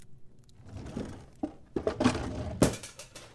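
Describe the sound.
A cooking pot used for beef stew slips and clatters: a few sharp metallic clanks and thuds in quick succession, the loudest crash coming near the end, with no voices.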